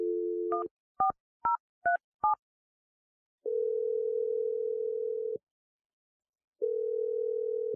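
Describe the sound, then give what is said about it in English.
A telephone number is dialed: a dial tone gives way to a quick series of keypad beeps, then two long, even ringing tones separated by a silent pause. “I'm dialing the number now.”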